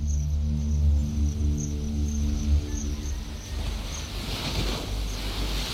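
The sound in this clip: Sea waves wash at the shore of a flat island. A steady, faint, low rumble of surf is mixed with wind noise, with no voices.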